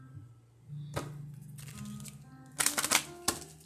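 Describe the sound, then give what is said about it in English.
An angel card is pulled from a card deck. Quiet papery rustling gives way to a few sharp snaps and flicks of the cards, which cluster near the end, with no voices. “I want to pull another um, angel card real quick.”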